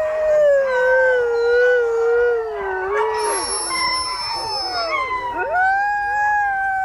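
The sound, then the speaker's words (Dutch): A dog howling: long, loud, mournful howls that waver and slide up and down in pitch, with higher overlapping tones midway and a final rising howl, with no voices. “Nee, dit is toch echt een huilende hond inderdaad.”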